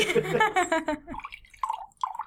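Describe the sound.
A drink is poured from a bottle into a glass, heard as two brief gurgling glugs of liquid that follow a short stretch of speech.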